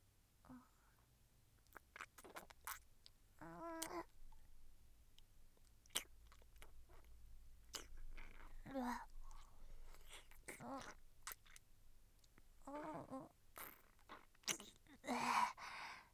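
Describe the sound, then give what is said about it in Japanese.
Wet licking and lip-smacking mouth sounds, many soft, irregular smacks and clicks at a quiet level, with a few short breathy vocal bits between them. “舐めてあげるね。”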